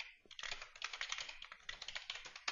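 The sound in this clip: Rapid clicking of a computer keyboard as a fictitious email address is typed in, a quick, steady patter of keystrokes with brief pauses, faint and without any talk over it.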